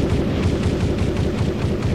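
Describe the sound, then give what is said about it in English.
Gunfire from an M16 rifle forms a dense, loud roar of automatic fire, sustained and even throughout with no clear breaks between shots. “There you go. There's that sound for you. Give me that M16.”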